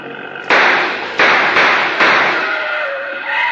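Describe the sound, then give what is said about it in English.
A Jeep crashing into a rock ledge: a run of loud, harsh bursts of noise, each hitting abruptly and then fading, with a rough roar continuing between the impacts. “He drove into a ledge. He's pinned pretty badly.”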